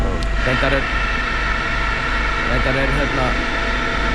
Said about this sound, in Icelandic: Þarna heyrðu við að við erum að bora hér í stafnin á göngunum, þannig að menn eru að mjakast hér inn. Já, þeir eru að bora hérna, bora á fersta bolta.